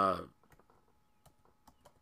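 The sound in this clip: Typing on a computer keyboard, a few sparse, faint clicks after a brief voice at the start.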